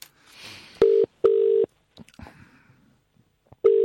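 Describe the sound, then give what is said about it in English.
Dialing a telephone number on a touch-tone keypad: three loud, steady beeps of the same pitch, with pauses and faint clicks between them. “Let me dial that again.”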